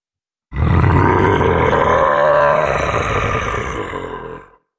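A chained dragon roars at a spreading alchemical mist, a deep, rasping, growling roar that stays loud and steady for about four seconds before tapering off, heard alone without talk.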